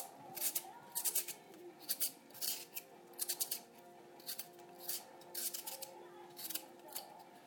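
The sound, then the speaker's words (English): Scraping strokes of an old-fashioned straight peeler with a slot down the middle as it peels a potato: many short, rhythmic rasping swipes in uneven bursts, fairly faint, with no talk. “To peel this in a weird way, because if I peel it in my normal way, I use the old-fashioned type of peeler with a slot down the middle.”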